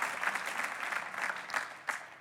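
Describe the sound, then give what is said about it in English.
Moderately faint applause from a church audience, a dense, continuous patter of many hands with a few sharper claps standing out near the end. “You know, you give the Lord a much larger round of applause on that, because that's the truth, friends.”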